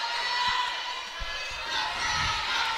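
A basketball thumps on the court as a player dribbles a few times before a free throw at a girls' high school championship game. The soft, low bounces sit under a steady crowd murmur.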